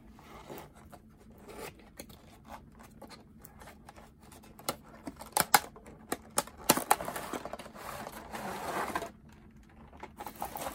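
Plastic crackling and sharp clicks come from a taped plastic clamshell package holding a model car being opened. Many quick snaps and rustles sound alone, without talk, growing busier and louder midway.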